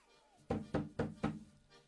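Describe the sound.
Knocking on a door: four sharp, evenly spaced raps in quick succession, then a single fainter knock after a short pause.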